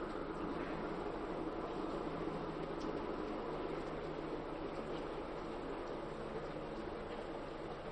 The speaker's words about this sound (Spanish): Parece que hay muchos trenes hoy.